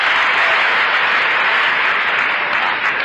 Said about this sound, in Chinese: 这回您热烈的给我鼓掌，咱们气气的。